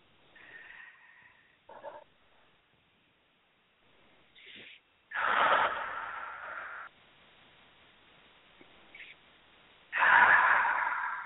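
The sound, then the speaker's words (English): Deep breathing during a guided relaxation exercise: slow, airy inhales and exhales, two of them long, loud and drawn-out, with fainter, shorter breaths before and between them and near-silent pauses. “And three nice deep breaths.”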